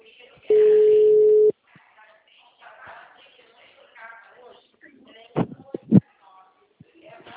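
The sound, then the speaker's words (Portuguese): A telephone ring-back tone sounds while a call is placed: one flat, steady beep about a second long, then quiet shuffling and faint voices. “Chamando.”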